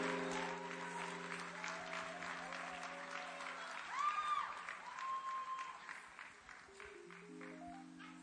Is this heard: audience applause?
yes